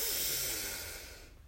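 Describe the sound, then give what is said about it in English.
A person breathes out slowly during a guided relaxation exercise. It is one soft, airy hiss that holds steady and then fades away over about a second and a half. “Breathe in and out.”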